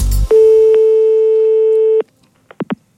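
Telephone busy tone after a call is hung up: a short low clunk, then one long steady beep lasting under two seconds, followed by a few brief fainter blips.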